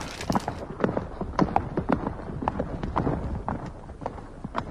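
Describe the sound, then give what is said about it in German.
A brown stallion gallops up a village street in Bosnia-Herzegovina, the horse a family uses to haul wood from the forest. Many quick, uneven hoof beats clatter in a steady driving rush. “Vor dem Haus wird es unruhig. In vollem Galopp stürmt ein brauner Hengst die Dorfstraße hinauf.”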